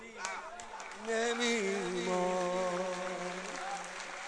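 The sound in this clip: Crowd clapping at a religious gathering, a steady patter of many hands beneath a chanting voice that grows louder after the first second and carries on throughout.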